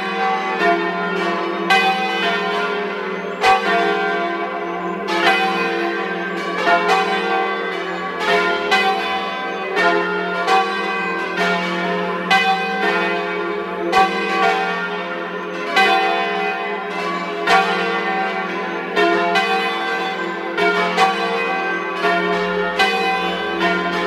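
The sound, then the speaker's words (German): Parish church bells ring out at noon in Welschellen, in the Gadertal valley of South Tyrol. Many overlapping strikes form a steady, full-bodied peal of rich ringing tones that continues loudly throughout, with no voices. “Es ist 12 Uhr. Sie hören die Glocken der Pfarrkirche zu den heiligen Aposteln Petrus und Paulus aus Welschellen in Südtirol.”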